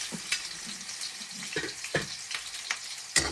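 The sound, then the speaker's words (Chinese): Scallions and ginger stir-frying in hot oil in a wok, a busy crackling sizzle broken by sharp pops and short scraping stirring strokes, one sharper burst near the end. “热锅倒油。放入葱姜煸炒啊， 葱和姜啊”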